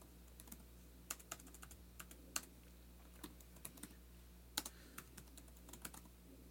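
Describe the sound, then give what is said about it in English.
Faint typing on a computer keyboard, many light, irregular keystroke clicks in short uneven bursts over a quiet, steady background hum. “Let's see what happens if I type in MDMA Lifestyle Wave.”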